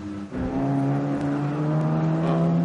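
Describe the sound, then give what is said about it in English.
A course vehicle drives on a race course, its engine giving a steady, sustained drone with clear humming tones. The level dips briefly near the start and then holds even and fairly loud. “So the course vehicle's actually ducking away from back into an access road there. And more course vehicles going out.”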